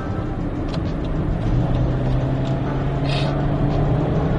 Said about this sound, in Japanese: はい、高速乗りました。